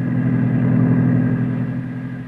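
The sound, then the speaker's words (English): A car engine drones steadily as the car is driven, a low, even hum that stays nearly constant in loudness throughout, with no voices. “We got in the car, and I agreed to drive her as far as the hotel in Denver. But instead, I kept on going.”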